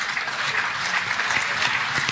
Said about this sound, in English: Give this man a round of applause.